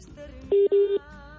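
Telephone dialing tones while placing a call: two short, loud beeps in quick succession, each under half a second, over a faint background.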